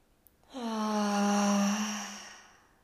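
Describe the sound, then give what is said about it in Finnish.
A long, deep breath out with a voiced, sighing tone during a guided breathing exercise, steady in pitch and swelling then fading over about two seconds, heard alone. “Tyhjennä sun hengitys ja otetaan yhteinen sisään hengitys, hengitä sisään. Ja sun kautta ulos. Ota vielä toinen sisään.”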